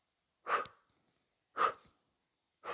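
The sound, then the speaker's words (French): Breathing out through the mouth during a guided stretching exercise with swinging arms and relaxed shoulders: three soft, breathy exhalations at a steady rhythm about a second apart, the last one cut off, with no talk. “Et expirez par la bouche.”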